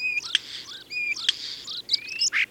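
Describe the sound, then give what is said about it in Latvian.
A common starling sings a rapid, varied run of clear whistles, sharp chirps and buzzy rasping notes. The song is loud and heard alone. “Te nu mājas strasti ir īsti meistari, viena no prasmīgākajiem dziedoņiem Latvijas lidoņu korī.”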